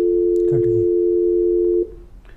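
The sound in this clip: A telephone dial tone sounds as a phone call is connected: a loud, steady low hum holds for almost two seconds, then cuts off and leaves faint line noise.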